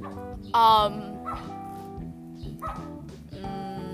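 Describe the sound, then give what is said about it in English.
A pet dog gives a short, high yip or whimper early on, one brief burst, while people keep talking over a quiet backdrop. “I'm so sorry for my dog”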